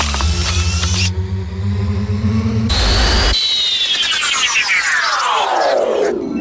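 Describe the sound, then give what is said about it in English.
A sci-fi time machine effect: a loud, unbroken electronic roar with steady low hums, then a sudden noise burst and a long band of tones sweeping steadily downward. “All right, time to hit the incredible time machine and back to the Enterprise. Now entering time machine.”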